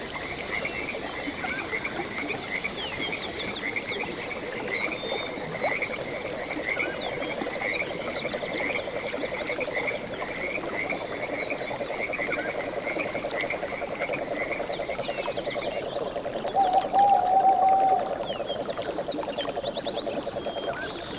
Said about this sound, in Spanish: con el sonido de los bosques de fondo, del bosque, queremos decir